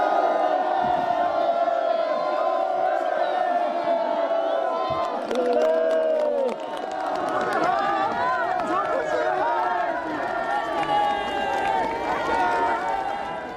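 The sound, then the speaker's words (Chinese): Villagers cheer by the roadside in a rural village. Many overlapping voices call out, with shouts and whoops rising above a continuous crowd murmur throughout. “村民们聚拢在路旁，手捧洁白的哈达，欢呼着向总书记问好。”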